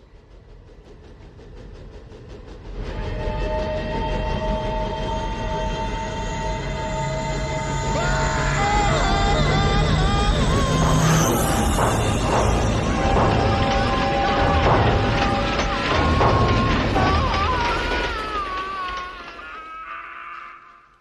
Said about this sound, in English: I think that was the old New York Central, City of Albany. Derailed in 1920, killed hundreds of people. Did you catch the number on the locomotive?